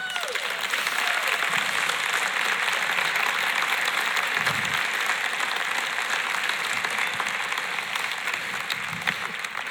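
An audience gives sustained applause as guests are welcomed onto a stage. The clapping is dense and even at a steady, fairly loud level throughout.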